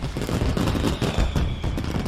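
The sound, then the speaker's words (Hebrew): Citrus peel oil sprayed into a candle flame flares in a loud, dense burst of crackling pops that runs almost steadily for about two seconds, with no voices. “וכשהשמנים הדליקים האלו פוגעים בלהבת הנר, הם נדלקים במהירות ויוצרים לנו זיקוקים מרהיבים.”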